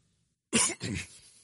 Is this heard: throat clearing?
yes